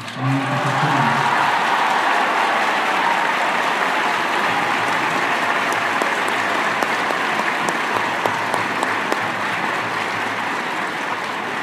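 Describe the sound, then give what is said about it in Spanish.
A crowd applauds a bishop with dense, steady clapping that keeps going at an even level for about twelve seconds, with a few sharper claps standing out near the end. “y en realidad se merece ese aplauso porque ha sido realmente un pastor bueno y fiel.”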